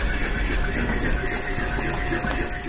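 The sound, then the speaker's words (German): Sewing machines whir busily in a university textile garment lab. A loud, continuous mechanical hum carries a steady tone and does not pause. “Im Konfektionslabor wird eifrig genäht.”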